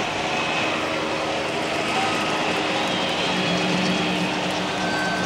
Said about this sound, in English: We apologize for the noise of the choppity-choppity, but it seems there are a few cars blocking the road, so we're flying everybody in.